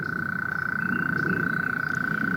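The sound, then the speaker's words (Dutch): A mole cricket calls in a garden with a steady, unbroken buzzing trill held at one even pitch, loud and continuous throughout over a soft background hiss. “het magische geluid van de veenmol. Hier bijgevoegde opname, u hoort het.”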